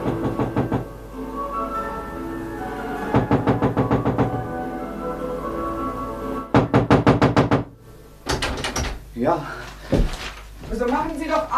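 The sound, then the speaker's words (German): Knocking on a door in a German radio drama: several bursts of rapid, hard raps, each lasting about a second, separated by pauses, followed by voices talking. “Ja, wir klopfen schon seit 5 Minuten, mein Herr.”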